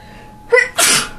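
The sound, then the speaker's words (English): A single human sneeze: a short, sharp intake of breath followed by a loud, breathy burst that fades quickly. “Sorry, I might sneeze again.”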